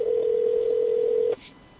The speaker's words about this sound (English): Random phone call time.